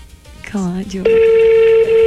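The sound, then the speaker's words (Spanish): A telephone call goes out: after a short burst of voice, a steady mid-pitched line tone comes in and holds unbroken to the end. “No le van a contestar, parece. Su llamada está siendo transmitida.”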